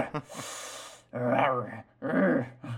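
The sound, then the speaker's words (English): A man's voice imitates the grunting and growling of Matthew McConaughey's character Denton. A breathy exhale comes first, then two loud, gravelly, drawn-out growls separated by a short pause. “It is every time Matthew McConaughey's character, Denton, grunts or growls. So every time he goes,”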